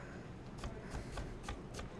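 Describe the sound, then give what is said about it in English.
Knife dicing cored Honeycrisp apples: a steady series of sharp, crisp cuts over a constant low background rustle. “these are Honey Crisps, and I'm just going to dice them up. So I cut out the core, and then cut them into a dice.”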